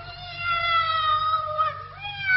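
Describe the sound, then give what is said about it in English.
A tomcat meows in one drawn-out, wavering cry that holds steady and then rises near the end, heard alone. “It'll be that Tomcat from next door but one.”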